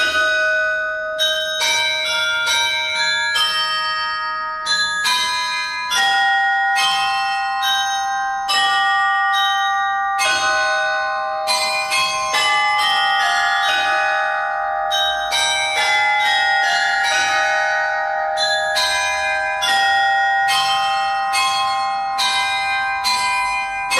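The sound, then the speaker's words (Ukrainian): Carillon bells play a melody, with many struck bell notes ringing in quick succession. The bright tones overlap and sustain at a steady loudness throughout, with no voices. “коли буде карельйон вигравати їх мелодії.”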